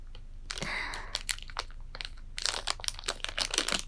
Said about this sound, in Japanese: ちょっと使ってみようかな。ちょっと開封からになっちゃうけど。